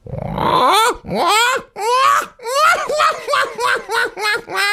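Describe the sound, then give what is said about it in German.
A human voice imitates a black-headed gull in a run of many harsh, laughing, wailing cries. A long opening call gives way to shorter yelps that come faster and more clipped toward the end. “Jetzt kommt eine leise Lachmöwe. Und jetzt wird die leise Lachmöwe ein bisschen lauter.”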